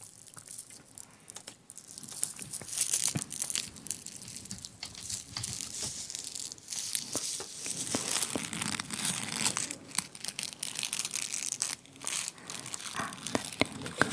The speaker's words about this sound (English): This one is called Mouth Sounds, Inaudible Whispers, and Crinkles ASMR by Cosmic Tingles ASMR channel.